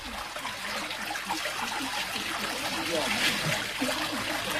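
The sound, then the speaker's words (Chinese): Water steeped with a herb used for filtering pours into a basin of kudzu starch liquid, making a steady, continuous splashing trickle that stays even and fairly loud throughout. “加入管仲水后，与盆内的液体发生了奇妙的化学反应，深褐色慢慢变成奶白色。”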